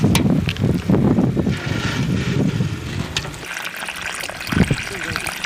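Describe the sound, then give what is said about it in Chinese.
Water poured onto melon plants in dry soil on a hot day, a steady splashing hiss that rises and falls, with a voice partly over it. “天太热了，这下面这都有点干了，给瓜浇浇水， 让它呀茁壮的成长。”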